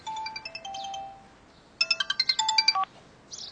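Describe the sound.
A telephone rings with a melodic electronic ringtone. A short tune of beeping notes plays, pauses, then returns as a faster, brighter run, and another ring begins just as the sound ends.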